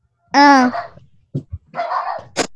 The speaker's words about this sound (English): That's my dog barking.